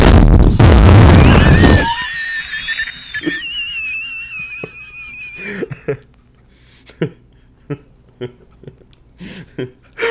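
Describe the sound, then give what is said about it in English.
A station explodes as a sound effect: a loud, broad roaring blast for nearly two seconds, then thin whistling tones and a scattered run of short, sharp bursts. “That was the station exploding.”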